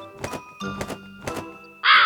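Three harsh, raspy caws from a crow perched high in a tree, evenly spaced and fairly loud, followed by a sudden bright burst of noise at the very end.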